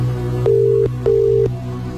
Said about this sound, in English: If they don't pick up, we're going to have to move on to the next caller. Let's give it a bit more.